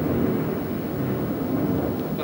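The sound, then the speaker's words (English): Thunder rolls through a thunderstorm as a continuous, even low rumble with no distinct cracks, filling the whole clip with steady loudness. “Thunderstorm. Is that thunder?”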